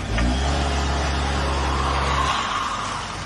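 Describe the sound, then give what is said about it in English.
A car revs hard in reverse in a car park, its front wheels spinning while the back wheels stay locked, making a loud, sustained engine drone whose low rumble drops away near the end. “So then the guy tries one more time. Puts it in reverse and steps on it.”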